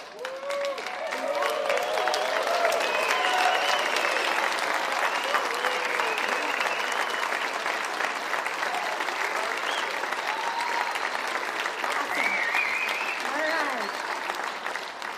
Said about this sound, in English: And guys and kids, you stand up and let's make some noise. Let's rave and let's shout.